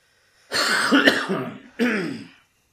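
A person clears their throat in two rasping bursts, a longer rough one followed by a shorter one, alone with silence before and after.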